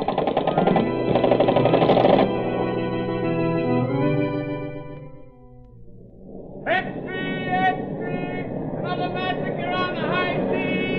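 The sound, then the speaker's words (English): Radio-drama machine gun fire from a man at a submarine's hatch, a rapid rattling burst of loud, tightly spaced shots, followed later by voices over a continued mechanical rattle. “A man's coming out of the submarine's hatch, sir. He's got a machine gun. He's pointing at us.”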